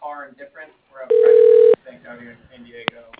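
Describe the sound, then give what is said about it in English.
A telephone line sounds as a call is transferred to voicemail. One steady mid-pitched tone lasts about half a second between stretches of talk, and a brief sharp click follows later. “That would be him, so I would put you through to his voicemail.”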